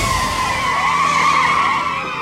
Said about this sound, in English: At high speed, the suspect spins wildly, but it doesn't convince her to stop.